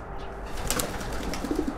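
Pigeons cooing in a garden where they have been kept for decades. A few soft, low coos come near the end over a steady background hiss.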